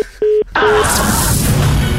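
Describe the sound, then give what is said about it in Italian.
Telephone tones as a call is placed to a town hall: a short steady tone burst, then a dense noisy hiss carrying a brief tone that runs to the end. “Sto chiamando al comune per il sindaco e nel senso è più importante.”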